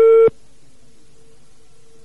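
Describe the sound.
A telephone busy signal on a call to a landline: one loud, steady tone burst lasting a fraction of a second, then only a faint, continuous tone remains.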